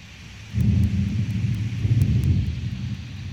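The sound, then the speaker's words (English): Thunderstorm sounds played from a smart speaker: a low, rolling rumble of thunder swelling and lingering over a steady hiss of rain, continuous throughout with no talking. “Hey, Google, play thunderstorm sounds. This is the sound of a thunderstorm.”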